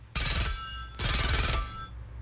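An old telephone bell rings loudly, two shrill, metallic, rattling bursts separated by a short pause, each a continuous jangling trill with bright, piercing overtones, followed by quieter background noise.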